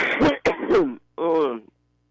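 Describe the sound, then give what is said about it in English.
A person's cough and throat clearing: three sharp, harsh bursts in quick succession, then a longer, rough voiced rasp, all fairly loud and followed by silence. “Got a nasty cough there. You need to get you some cough drops there.”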